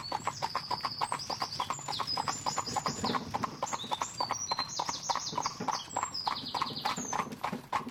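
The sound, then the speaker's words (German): Hooves clip-clopping from a four-horse carriage laden with luggage, many quick hoofbeats in a steady rolling rhythm, with high bird chirps scattered over the top. “Ein Geräusch ließ ihn aufblicken. Vor ihm fuhr ein mit Gepäck beladener 4-spänniger Wagen.”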